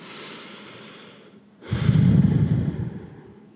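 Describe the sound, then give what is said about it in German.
Deep breathing during a guided relaxation exercise: a faint, slow inhale followed by a loud, breathy exhale that swells and then fades, with no talk. “und atme noch mal einmal tief ein und aus.”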